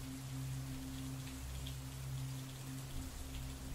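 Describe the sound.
Heavy rain falls in a dense, steady hiss that never lets up, with a low constant hum beneath it and no voices.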